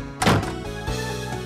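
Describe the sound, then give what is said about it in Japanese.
A door is pushed shut with a solid, heavy thunk, followed by a fainter second knock as it settles. “ほら、ちゃんとドアを閉めなさい。”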